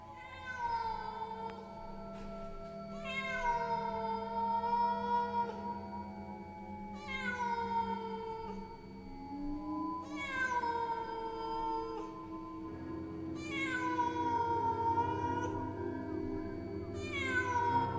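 A black cat meows on a grave in a graveyard at night, giving many long, plaintive, wavering calls in a steady series. Each call slides down in pitch, with no talk.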